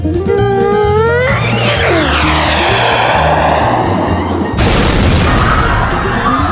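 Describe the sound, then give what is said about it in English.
Rocket launcher firing in a film trailer: a loud, swooping whoosh with sweeping tones, then a sudden heavy boom that leaves a roaring rumble to the end. “not the rocket launcher”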